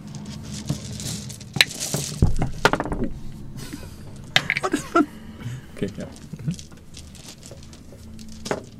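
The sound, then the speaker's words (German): Dice being rolled during a tabletop Call of Cthulhu game produce many quick, sharp clattering clicks in scattered bursts, some loud and some faint, spread across the whole stretch. “Würfelt einmal alle bitte in DC.”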